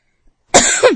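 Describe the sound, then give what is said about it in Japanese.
A single short burst of coughing after choking on something, harsh and loud, lasting about half a second with a second push near the end, heard alone with no talk. “ごめんなさい、むせたわ”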